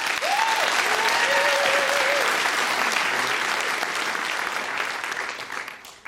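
Enthusiastic audience applause greets a reader onto the stage at a live reading event, dense clapping with a few whoops early on, holding strong before tapering off at the end.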